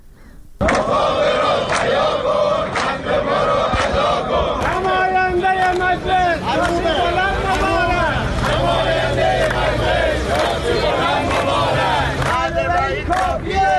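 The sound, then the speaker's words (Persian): Protesters at a retirees' rally in Iran chant slogans in a loud, continuous crowd roar, with many voices shouting together in rhythm throughout. “در این تجمعات که از جمله در استانهای خوزستان، کرمانشاه، عراق و لرستان برگزار شد، معترضان شعارهایی از قبیل نماینده مجلس شاسی بلند مبارک سر دادند.”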